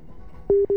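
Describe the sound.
A telephone busy tone sounds after a call cuts off. It is a steady mid-pitched tone that starts about halfway through and is broken by a brief gap.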